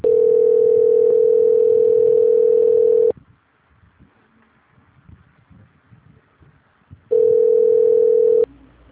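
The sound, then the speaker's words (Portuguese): A telephone line tone sounds while a call is being transferred: a loud, steady, single-pitched hum lasts about three seconds, then a gap of faint noise follows before the same tone returns for a little over a second. “Só um minuto, por favor, que eu vou transferir a sua ligação. Tá certo. Transferência.”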